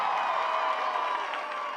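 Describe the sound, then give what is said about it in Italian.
Crowd cheering and applauding at a concert after a song, a dense, continuous roar of voices and clapping that stays loud across the short stretch. “grazie mille raga, fatevi un applauso, avete spaccato.”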